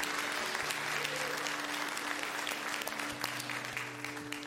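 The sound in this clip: A church audience applauds to welcome new members into the family, with sustained, dense clapping that holds steady and loud before easing slightly toward the end.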